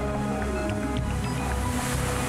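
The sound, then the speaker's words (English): Choppy sea waves churn at an offshore site during a tropical storm in the Western Pacific, a steady, dense rushing wash that holds at an even level throughout, with no distinct breaks. “Noru, the 13th tropical storm of 2011 in the Western Pacific, has been building strength lately, making the sea choppy.”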